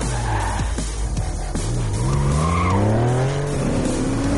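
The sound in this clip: A white Porsche's tires squeal as it speeds off in a car chase, with sharp skidding screeches followed by the engine revving hard, its whine climbing steadily in pitch.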